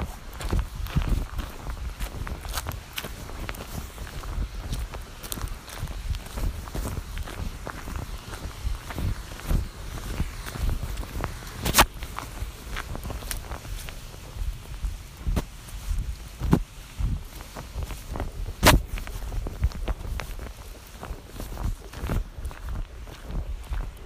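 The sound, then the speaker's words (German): Footsteps of someone walking back home on a stroll, a long, steady series of regular treads that keep an even pace throughout. “Und jetzt laufe ich zurück, aber einen anderen Weg zurück nach Hause.”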